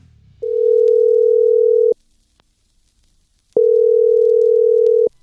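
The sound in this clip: Telephone ringing tone heard while placing a call: two long, steady, mid-pitched beeps of about one and a half seconds each, separated by a silent gap, loud and alone.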